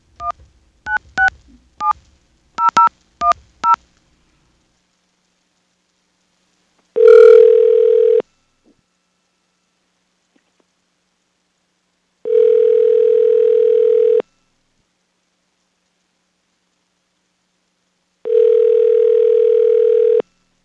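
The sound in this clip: Touch-tone dialing to a business telephone number: a quick run of keypad beeps, then three long, steady ringback tones separated by silent gaps.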